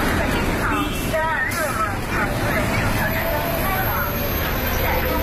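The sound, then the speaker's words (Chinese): A Beijing city bus on a long-running route pulls into a stop, its steady engine and road noise filling the scene while people chatter throughout. “这是126路公交车进站时的声音，这段声音也伴随了这条线路上的乘客多年。”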